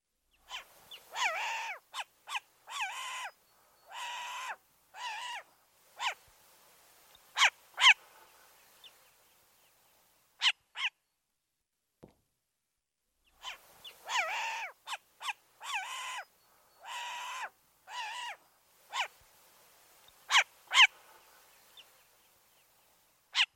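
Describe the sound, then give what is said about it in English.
A short-eared owl gives many harsh, raspy, high barking calls in two long bouts separated by a quiet pause, each call short and sharply cut off, alone with no voices. “Short-eared owl.”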